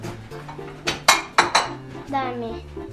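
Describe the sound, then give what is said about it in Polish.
A plate clatters against other dishes in a few sharp, ringing clinks bunched close together, with a person talking around the impacts. “Co takiego? Talerz? Tak. Talerz. Wiesz, tu talerz był.”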